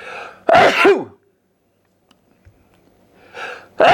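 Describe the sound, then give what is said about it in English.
A loud sneeze set off by dust from a spinning hard drive, a sharp burst followed by near silence, then another strong burst of breath at the very end. “I must be allergic to this hard drive. Or maybe it's because there's dust in this hard drive and I keep spinning it and I sneeze.”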